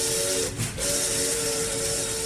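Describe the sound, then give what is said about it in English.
Steam whistle and hiss of a steam train pulling out of Washington on a campaign tour. A steady, sustained whistle tone rides over broad hissing steam, dips briefly about half a second in, then resumes. “A 16-day coast-to-coast tour lies ahead as the Truman Special pulls out of Washington.”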